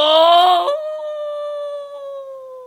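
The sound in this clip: A human voice imitates a dog howling up at the sky: a single long, tonal howl that rises at the start, then holds a steady pitch and slowly tapers off, heard alone.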